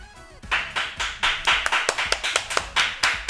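Children clapping as a mock live studio audience: many crisp, uneven hand claps in a quick, loose rhythm, some closely doubled, growing busier toward the middle.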